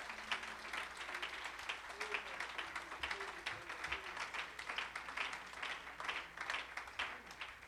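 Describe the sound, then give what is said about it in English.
Congregation clapping hands together at a church service, a dense, steady patter of many claps keeping a loose rhythm throughout, with faint voices underneath. “Could you clap your hands to the Lord in this place?”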